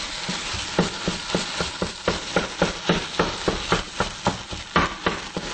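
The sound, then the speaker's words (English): Soy chorizo sizzles as it browns in a pan, a constant frying hiss broken by a brisk, regular run of many scraping stirs. “And over here I have our soy rizo, which is, I can hear it getting brown.”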